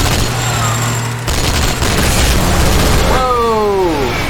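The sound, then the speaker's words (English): Rapid gunfire from the Walker gun in a video game: dense, continuous shots that stay loud throughout, with a voice talking over the firing. “What is that? It's the Walker gun!”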